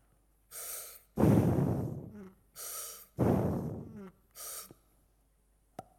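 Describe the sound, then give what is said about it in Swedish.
Breathing through a scuba regulator underwater: three hissing inhalations alternate with two louder, rougher exhalations in a slow, steady rhythm, followed by a single sharp click near the end. “Okej, om jag tar ett andetag. Nu kommer jag inte kunna prata då när jag tar ett andetag här.”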